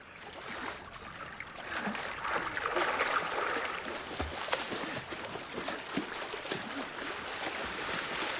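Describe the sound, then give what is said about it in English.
Water splashes and sloshes as a man swims, a continuous churning wash broken by a few sharper, louder splashes, with no voices. “He begins to swim toward her.”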